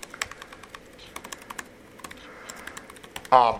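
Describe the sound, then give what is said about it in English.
Rapid clicking of a computer keyboard as a comment is typed, with many light key taps in an irregular rhythm. A voice begins right at the end. “You can also type a comment here.”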